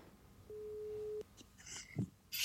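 A single steady, mid-pitched telephone tone sounds while someone is being called. It lasts under a second and is followed by a few faint, scattered noises.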